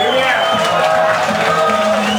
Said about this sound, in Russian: Ну и че вы молчите? Братва, аплодисменты!